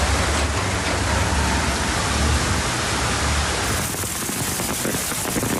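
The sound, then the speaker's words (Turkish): Heavy rain pours down during an afternoon storm in Ankara that also brought hail. It makes a steady, dense hiss with no voices, and its texture turns rougher and more spattering toward the end. “Başkent Ankara'da öğleden sonra yağış etkiliydi ve başkentlilere zor anlar yaşattı.”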